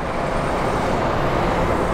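City traffic and a bus arriving at the number 52 stop at Colfax and Broadway in Denver: a continuous, loud roadway roar with a low engine rumble, steady throughout with no distinct separate events.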